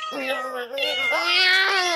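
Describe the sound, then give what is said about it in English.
An unneutered male cat meows in one drawn-out, harmonically rich call that dips briefly partway through. It is fairly loud and heard alone. “As you can hear, he's quite a handful. As a matter of fact, he sired several litters of cats or kittens”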